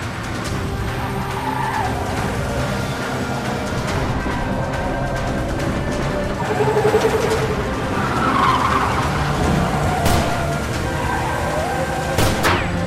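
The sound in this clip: Three cars approach in a steady, loud roar of engines and road noise that holds throughout, with squealing tire skids mixed in.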